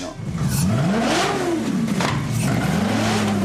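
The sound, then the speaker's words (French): A Maserati GranTurismo S 4.7-litre V8 of 470 hp, fitted to a four-wheeled tilting motorcycle, revs hard. The engine note climbs and falls in pitch several times over a continuous, loud roar. “Celle-là, je voulais avoir le bruit, le son du V8, en tout cas, et un moteur italien. Du coup, je suis parti sur un V8 Maserati Gran Turismo S, 4,7 litres, 470 chevaux.”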